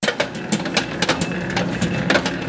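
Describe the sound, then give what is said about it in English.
A bakery mixer at a Jewish bakery in Monticello spins carefully measured dough for sufganiyot, a steady mechanical whirr with repeated clanking knocks throughout. “That's the sound of the bakery mixer, spinning the carefully measured dough for sufganiyot, a traditional Jewish donut shaped, fried, and often filled with jelly or custards to perfection.”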